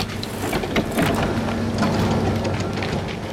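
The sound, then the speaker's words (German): Steady mechanical hum and rumble of a gondola cable car riding up a mountain, with a low droning tone under continuous airy, wind-like noise. No one speaks. “Wir fahren mit der Gondel den Berg darauf”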